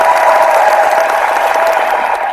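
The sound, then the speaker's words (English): Audience applause, dense and continuous clapping that stays loud and even for the whole two seconds. “I'm going to give you a round of applause.”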